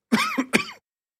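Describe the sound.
Throat clearing and coughing: three rough, quick bursts packed into less than a second, then silence, with no talk.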